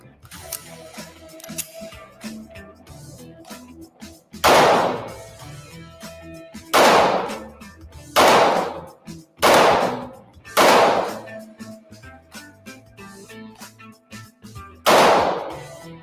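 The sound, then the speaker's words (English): Six sharp pistol shots come from a Smith & Wesson M&P 9 2.0 Competitor, an all-metal, optic-ready competition 9mm, fired on a shooting range. The loud cracks are irregularly spaced, and a longer pause comes before the last one. “All right, so we're out on the range with the M&P 9 2.0 competitor. I'm really looking forward to shooting this gun, the all metal competition ready, optic ready gun. So let's give it a try, see how it shoots. Going hot.”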